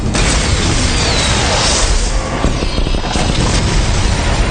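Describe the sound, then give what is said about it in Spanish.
Infrared missiles fire with a loud, sustained roaring blast, a dense booming rush that fills the whole clip without pause or separate shots. “Misiles infrarrojos armados. Se está activando. ¡Fuego! ¡Fuego! ¡Fuego!”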